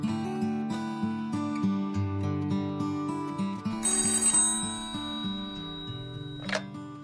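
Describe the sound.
A telephone rings with a melodic electronic tone, a repeating sequence of steady pitched notes that sounds for about seven seconds with no voices, and a short sharp burst near the end.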